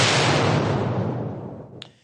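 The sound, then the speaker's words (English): A bomb explosion sound effect erupts as a single loud boom, then fades into a long rumbling decay, with a brief sharp crack near the end. “Bomb that. Hold your ears, boys.”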